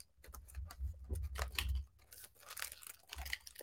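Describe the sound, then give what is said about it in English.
Mosaic World Cup trading card packs being opened, faint crinkling and tearing of wrappers in irregular rustling bursts. “This is my first time ever opening these packs, these Mosaic World Cup packs.”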